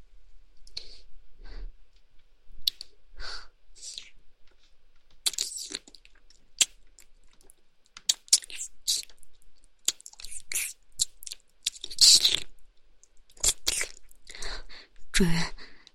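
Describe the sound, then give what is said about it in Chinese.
Licking on a shoe's upper: many short, irregular wet clicks and smacking mouth sounds, soft and scattered, with quiet whispered speech faintly present between them. “对，来，舔鞋面了。”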